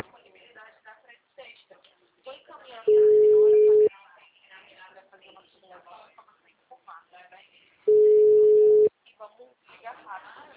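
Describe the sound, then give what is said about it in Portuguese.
Ringback tone of an outgoing phone call: two long, steady beeps about five seconds apart, each lasting roughly a second, with people talking before, between and after them. “Não, tá chamando, né? Ela só tem que atender agora, sim.”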